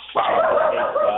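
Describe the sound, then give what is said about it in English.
A pet dog in the background gives a single drawn-out, whining bark that holds a steady pitch for about a second, fairly loud and heard alone. “my dog Jerry there in the background.”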